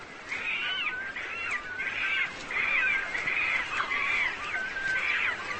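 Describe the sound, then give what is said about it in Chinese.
Birds squabble noisily over the best nesting sites, giving many harsh, rasping, cawing calls that overlap in a dense, continuous racket without pause, with no voices. “他们争夺着最好的筑巢地点，声音喧闹。”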